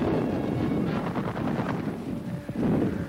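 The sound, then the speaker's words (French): Artillery fire from Chinese batteries above the Yangtze at Shanghai in 1937, aimed at a Japanese troop landing: a dense, continuous rumble of booms and crackling blasts, with a heavier burst near the end and no voices. “À Shanghai, un débarquement de troupes japonaises sous le tir des batteries chinoises dominant le Yangtze.”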